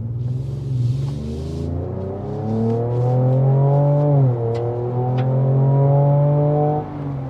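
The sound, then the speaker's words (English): A car accelerates with an augmented exhaust note that is not a V8, a loud steady engine drone climbing slowly in pitch, dipping briefly partway through, then climbing again. “I'm still got the aggressive exhaust note. Is that augmented? Yes, both augmented for us in here and also actual real outside. Okay, let me accelerate.”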